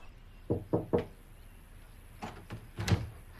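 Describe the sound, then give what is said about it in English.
Knocking on a den door in a house: a quick group of three knocks, a pause, then three more slightly spread-out raps. No voices. “At the house, there's a knock on Jack's den door.”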